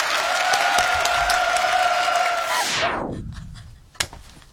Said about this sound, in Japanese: それではここで一度拍手の練習をではいきます。せーの拍手